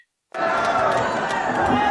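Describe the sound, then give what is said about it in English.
A concert crowd at a live show cheers in a loud roar that bursts in suddenly after a brief silence and holds steady, full of mixed shouts and chatter. “Listen to that crowd. They went nuts. Holy. They went nuts for the Brown album.”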